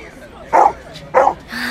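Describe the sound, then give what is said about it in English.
Dogs barking: two short, sharp barks about half a second apart, loud and slightly yelping, with people talking around them. “Oh, are they your dogs? Yes, they are.”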